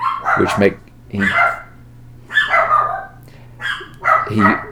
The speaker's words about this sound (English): apart from this barking